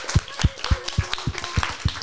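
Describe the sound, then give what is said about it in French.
Applause at a prize-giving at the end of a game competition: a small group claps in a quick, fairly even rhythm of sharp slaps, moderately loud, with no voices. “On peut les applaudir encore une fois.”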